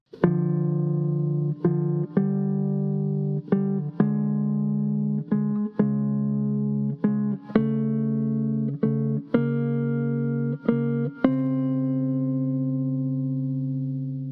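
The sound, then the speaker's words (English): Corigliano's chaconne theme is played in dotted rhythms as a clean, low, sustained tone. It moves in paired long-short notes through a slow line, and the final note rings out and slowly fades. “We also need to know that Corigliano uses dotted rhythms, which were very popular in the Baroque period, to give the theme more definition. With the dotted rhythms, the theme sounds like this.”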